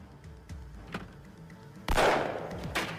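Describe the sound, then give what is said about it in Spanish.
A gunshot during a police standoff around a trailer. A few faint knocks come first, then a sudden loud blast with a ringing tail, followed by a smaller crack. “Se oyó un disparo.”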